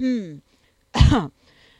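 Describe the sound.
A voice imitates an awkward man's throat clearing: a short, rough, low burst of about a third of a second, following a brief voiced sound and otherwise surrounded by near silence.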